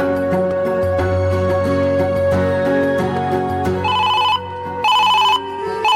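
An electronic telephone ringtone chirps in two short, bright bursts near the end, sounding over steady background music.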